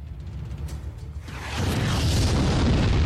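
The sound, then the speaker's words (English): A deep boom swells into a broad, roaring rumble as an explosion rocks the starship USS Lovelace. A low steady hum comes first, then the roar rises suddenly and holds loud to the end. “the ship is rocked by an explosion.”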